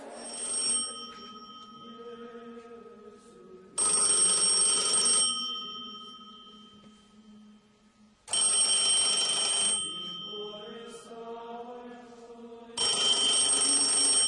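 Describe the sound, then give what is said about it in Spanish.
A telephone rings in bright, trilling bursts, four rings spaced about four seconds apart. Each ring is followed by a lingering tone that fades before the next, with no voices. “Y es cómo un día le llaman por teléfono.”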